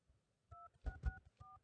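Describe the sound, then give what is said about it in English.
Four faint telephone keypad tones, each a short two-pitched beep, as a 4-digit password is entered on a phone conference line, with dull key-press thumps under them. “Please enter your 4-digit password followed by the hash or pound key.”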